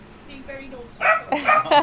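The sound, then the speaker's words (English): An excited puppy, a young assistance dog in training, lets out a few high yips and barks in the second half, with people talking around it. “It's a puppy. It looks like a guide dog puppy in training.”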